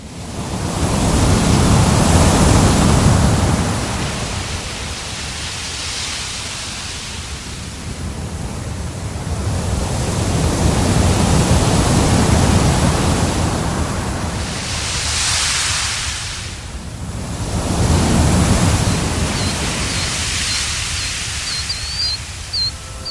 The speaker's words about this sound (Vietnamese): Trước mặt anh là biển đông bao la bát ngát, từng đợt sóng nối tiếp nhau vỗ vào bờ ì oạp.